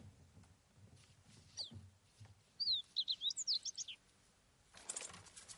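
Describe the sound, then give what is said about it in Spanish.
A small caged bird chirps in a quick burst of thin, high-pitched tweets, quiet against soft background rustling, with a faint flutter of wings around it and no voices. “mira al pajarillo enjaulado”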